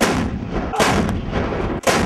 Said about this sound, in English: Weighing 9 tons, the M777 Alpha 2 howitzer has an imposing presence even when not manned by the 7-man crew. It fires